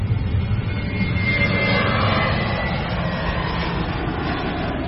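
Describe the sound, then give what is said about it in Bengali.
Airplane taking off down the runway, its engines a loud, steady, unbroken roar that fills the whole clip. “Plane runway দিয়ে দৌড় শুরু করেছে।”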